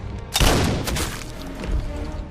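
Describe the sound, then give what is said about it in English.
A sniper rifle gunshot fired at a huge lumbering creature approaching a building: one sharp, loud crack with a booming, rumbling tail, then a few fainter cracks as it fades. “The sniper's bullet hits Nemesis, but he strides on unharmed.”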